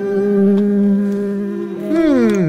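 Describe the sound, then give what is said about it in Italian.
A voice imitates a housefly buzzing around a kebab with a steady droning hum that wavers, then slides and bends in pitch near the end. “via mosca maledetta, via mosca da mio kebab, vai via!”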